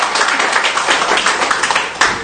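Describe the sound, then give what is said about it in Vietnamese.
Applause from a gathering celebrating the feast of Saints Wenceslaus and Lorenzo Ruiz: dense, steady clapping, loud throughout, with no voices over it. “chúng ta hân hoan chúc mừng một tràng pháo tay thật lớn thôi kìa.”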